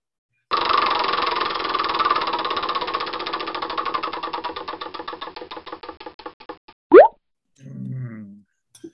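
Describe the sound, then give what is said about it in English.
Rapid plastic clicking comes from a spinning wheel used to choose a random discussion topic. The ticks slow gradually and spread apart until the wheel stops, then a short sharp pop follows and a brief low sound comes after it. “What is random? Spin the wheel.”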